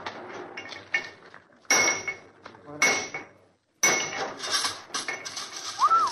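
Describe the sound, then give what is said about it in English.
Boxes being cracked open with tools, heard as loud metallic bangs, clanks and scraping rattles in several heavy bursts with short pauses between them. “Crack the next box.”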